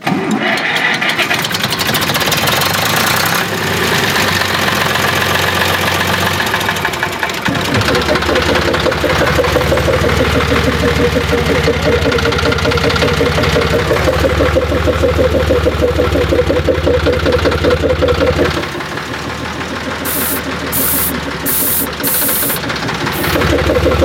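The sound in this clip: A small engine powering an air pump for inflating tyres starts up and chugs steadily with a knocking idle. It then settles into a deeper, continuous loud drone that runs throughout.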